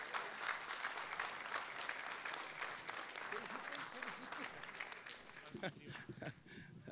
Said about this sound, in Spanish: Ahí sí, le reiteramos el aplauso, Jorge Céspedes, el Manguera.